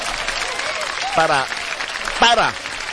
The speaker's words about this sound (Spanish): Un aplauso para todos los que están descansando, para todos los padres de familia,